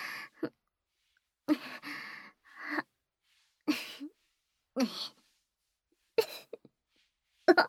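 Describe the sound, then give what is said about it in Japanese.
A series of sharp, breathy sniffs as someone repeatedly draws air in through the nose, coming in short clustered bursts separated by silent pauses. “じゃあ、何度も、何度も、鼻から、息、吸ってみ。”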